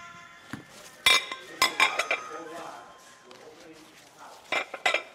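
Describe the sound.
Kitchen clatter of dishes, pots and cutlery as cooks arrange serving platters for barbecued bear, with a few sharp clinking bursts early on and more near the end over a low background hum.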